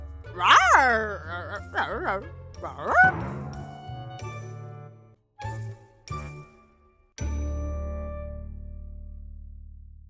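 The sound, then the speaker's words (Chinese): A small yellow dog barks a few times in quick, high-pitched yips, followed by bright ringing chime tones that fade out. “小黄狗多多看着宝咖咖牵着星星的手，开心地进了房间。他歪着头，满脸疑惑地叫了几声。”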